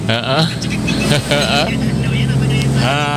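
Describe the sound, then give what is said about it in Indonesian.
Engine and road noise from a white Toyota HiAce Commuter van driving along the road from Limbangan toward Sumowono, a steady hum running under a man's continuous talking. “Lagi ini melintas di jalur Limbangan arah Sumowono ya. Ih, jalurnya asik.”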